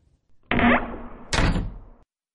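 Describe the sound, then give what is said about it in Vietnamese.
A room door swings shut, giving two dull, fairly loud thumps less than a second apart, followed by silence. “Cánh cửa phòng vừa khép lại”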